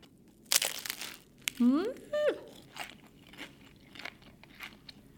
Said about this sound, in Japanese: パリッパリ、サクサク、本当に驚くほどの食感ですね。一番上の皮がもうパリパリなんですけど